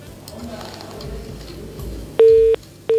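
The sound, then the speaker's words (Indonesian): A busy tone follows a dropped telephone call: after a low murmuring background, two loud, steady electronic beeps sound at the same pitch, separated by a short gap. “sayang sekali terputus”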